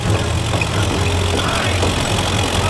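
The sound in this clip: A car engine idling before pulling away toward a workshop at the Farbenfabriken in Wuppertal: a low, steady, even hum with a constant throb and no clear change in pitch.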